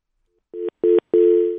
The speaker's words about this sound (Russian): Сорвался звонок.